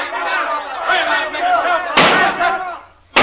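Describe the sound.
An angry mob outside a jail shouts in a dense mass of raised voices, with sudden loud bang-like bursts cutting in near the middle and again at the very end.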